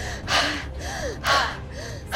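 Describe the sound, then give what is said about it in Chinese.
Rapid, heavy breathing during a breath test that simulates near-maximal exercise. Loud gasping inhales alternate with quicker, softer exhales in a steady, urgent rhythm, with no talking. “第三项检测要模拟接近极限运动状态下的呼吸模式，这又是怎样的体验？ 准备好，开始。”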